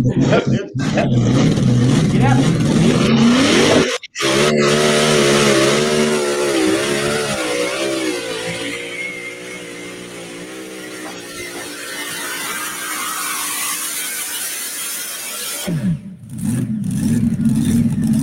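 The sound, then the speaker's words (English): A tractor engine revs hard at a tractor pull, a loud, rough roar that cuts out for a moment and then returns as a strained droning growl with wavering pitch and a steady heavy rumble. “Tell you what, it was a good tractor.”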